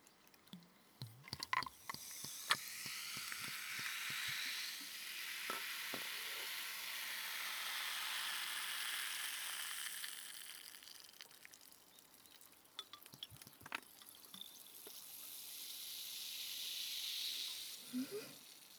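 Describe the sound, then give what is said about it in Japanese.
Ramune soda being poured into a glass and fizzing: a faint, soft hiss that swells and holds before easing, dotted with small crackling pops and clicks. “ラムネのいい香り、これをコップに注いで、”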